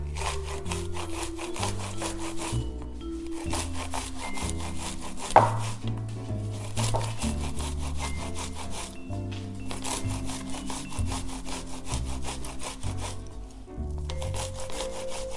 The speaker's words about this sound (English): All right, so I have a box grater. I'm gonna grate this sweet corn using the box grater.